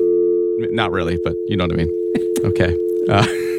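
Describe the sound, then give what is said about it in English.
A telephone dial tone hums as a steady, unbroken tone through the whole clip, with people talking over it. “Oh, you hear that dial tone?”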